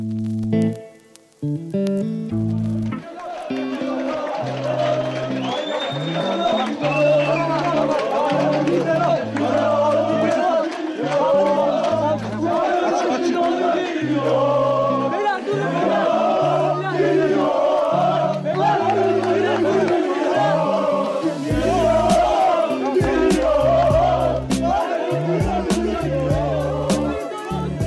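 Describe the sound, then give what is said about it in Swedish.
Galatasaray football fans give a chaotic welcome to player Tobias Linderoth just after he lands in Istanbul in June 2007. A loud, dense crowd chants and shouts continuously, with many overlapping voices. “Det ni hör här är Galatasaray-fansens kaotiska välkomnande av Tobias Linderoth när han precis landat i Istanbul i juni 2007.”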